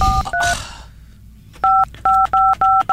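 Telephone keypad tones as a number is dialed to place a call: a couple of short beeps, a brief pause, then a quick run of several crisp, loud dual-tone beeps.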